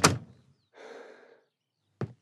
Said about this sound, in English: closes the door